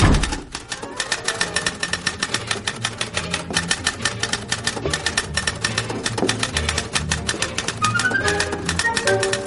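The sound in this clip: Fast typing on a typewriter using only the two index fingers: a rapid, unbroken stream of sharp keystroke clicks at a steady pace across the whole stretch.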